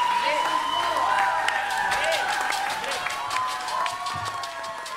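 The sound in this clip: Audience applause after a big band salsa performance, a steady, dense wash of clapping that holds evenly from start to finish.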